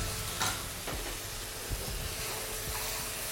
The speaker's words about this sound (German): Nachdem wir das Gemüse, Pilz und den Speck auch nochmal schön angeröstet haben, geben wir jetzt Tomatenpüree dazu.